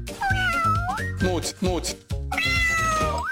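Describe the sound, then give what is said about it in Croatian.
Several drawn-out cat meows, loud and clear, some rising in pitch at the end, over a steady tonal background. “Where's my cat?”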